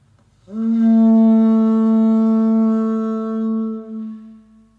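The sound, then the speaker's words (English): An ivory trumpet from the Congo, played with its finger hole closed, sounds one loud, steady, low buzzing note that holds for about four seconds and then tapers away, with no other sound. “an ivory trumpet from the Congo. With the hole closed, it sounds like this.”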